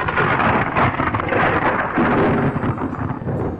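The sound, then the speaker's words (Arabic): Thunder rolls through a heavy rainstorm, a loud, continuous low rumble blended with the steady hiss of pouring rain and gusts of wind throughout. “هبت ريح رطبة، أبرقت وأرعدت،”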